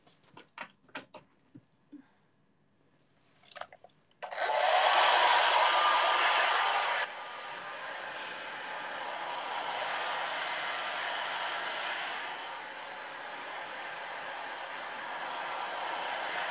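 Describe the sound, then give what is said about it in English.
A Hitachi hair dryer is plugged in and switched on after a few scattered handling clicks and knocks. It starts with a loud rushing blast, then drops to a softer, steady whirring hiss that swells and eases slightly. “It's a Hitachi dryer.”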